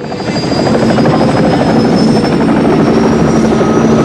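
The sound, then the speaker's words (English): A helicopter landing near an army base, its rotor and engine making a loud, steady, throbbing drone with a fast regular chop and a thin high whine, continuous and alone throughout. “Now a helicopter lands, settling jerkily.”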